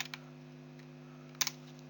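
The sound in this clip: Typing on a computer keyboard yields a few soft, scattered key clicks, faint over a steady low hum.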